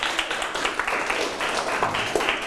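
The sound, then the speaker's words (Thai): Students clap for a classmate during a lesson on PM 2.5 dust, a quick, uneven patter of many hands at moderate loudness, continuing steadily the whole time. “ปรบมือให้เพื่อนนะครับ”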